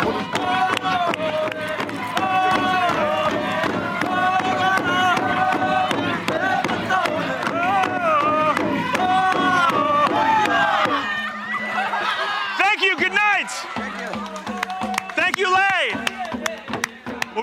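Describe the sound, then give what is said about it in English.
Villagers in Papua New Guinea sing and chant together at a Sing Sing ritual of song and dance. Many harmonised voices run over sharp, rhythmic percussive beats. Near the end the chanting breaks into higher, shouted whoops. “called a Sing Sing, a ritual in which villages come together through song and dance.”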